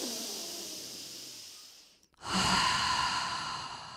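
A deep breath taken alone: a long, airy inhale, a brief pause, then a louder, breathy exhale that carries on to the end.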